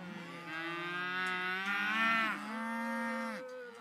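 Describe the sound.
A cow moos in one long, loud, low call that holds steady for several seconds, with no other sounds.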